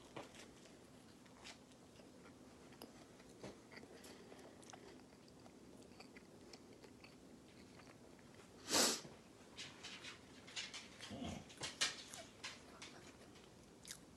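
Biting into Parmesan garlic Texas toast with a crisp outer crust: faint, scattered chewing with one sharper crunchy bite partway through, followed by several quieter chews.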